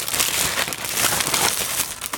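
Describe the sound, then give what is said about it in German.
Steady crinkly rustling, like paper or packaging being handled, fills the whole clip as a dense, continuous hiss of small crackles at a fairly even loudness. “Das raschelt, mach nichts.”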